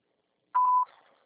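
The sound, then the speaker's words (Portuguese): A single short steady mid-pitched electronic beep from a mobile phone voicemail system, signalling the start of message recording. The tone is clean and alone, with a faint brief fading tail. “Sua chamada está sendo encaminhada para a caixa de mensagem e será sujeita a cobrança após o sinal. Após o sinal, grave sua mensagem.”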